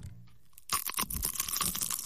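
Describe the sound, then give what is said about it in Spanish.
A crisp crunch as teeth bite into a churro from a churro shop on Olleros street in Chacarita, followed by a run of loud, crackly chewing crunches after a quiet start. “mordiendo un churro de la fábrica de churros de la calle Olleros, ahí en Chacarita”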